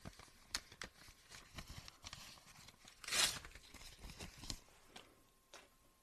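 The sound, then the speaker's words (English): A printed speech on paper is ripped up: faint tearing and crinkling with one louder ripping burst midway through. “Wait, hold on. Let me rip it up again.”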